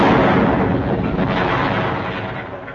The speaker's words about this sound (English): I'm tied to this barrel of exploding saxophones.